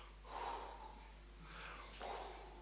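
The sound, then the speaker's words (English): A man imitates breathing out on someone with a few airy, hissing exhales. The breaths swell and fade softly, with no words between them. “and you breathe on them. What an odd thing to do.”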